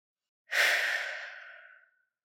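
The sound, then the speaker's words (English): A single deep, soft breath during a relaxation exercise: a smooth airy rush that swells quickly, then fades gradually over a little more than a second. “Take a deep breath in, and when you exhale, relax your shoulders.”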